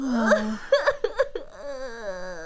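A child cries with a high, wavering whimper, short sobbing bursts in the middle and a drawn-out, moaning tone at the end.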